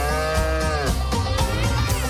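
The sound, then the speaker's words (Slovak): Cow mooing within a country-tinged pop song, drawn-out low bellowing moos layered over steady, loud music that keeps going throughout. “trošku country, keď započujete kravu”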